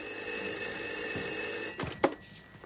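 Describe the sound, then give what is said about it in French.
A telephone ringing with a steady, high, continuous bell tone that fills most of the moment, followed near the end by a few short knocks and clatters. “mardi dernier, rien ne semblait s'arranger avec ce coup de téléphone de la Vierge Marie à Dieu Tout-Puissant.”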